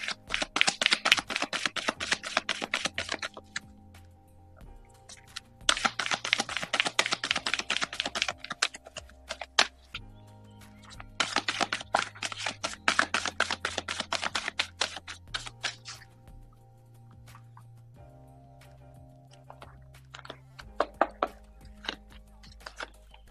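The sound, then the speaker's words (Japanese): Tarot cards being shuffled before three are drawn, heard as several bursts of rapid, crisp flicking and clicking separated by short pauses, with no talking. “シアンさんのカードを今3枚引かせていただきました。”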